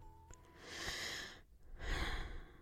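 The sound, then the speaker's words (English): A slow, soft breath: a long, airy inhale swells and fades, then after a short pause a gentle exhale follows. “For one moment, let's take a breath together, shall we? Nice and slow.”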